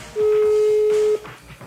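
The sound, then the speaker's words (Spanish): A telephone tone sounds as a number is dialed, one steady mid-pitched beep held for about a second, then quiet background murmur. “Vamos a marcarle a ver si nos contesta.”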